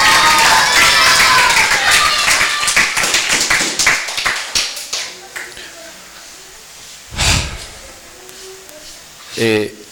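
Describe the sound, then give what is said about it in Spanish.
Audience applause at a children's birthday celebration: a dense burst of many claps that gradually thins into scattered claps and fades, with a couple of brief louder noises afterward. “A mi amiga Ebolet, un aplauso. Y otro aplauso para todos ustedes que son mis amigos y mis amigas.”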